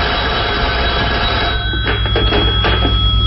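A telephone bell rings steadily and loudly on its own, with a thin, band-limited tone and no talk.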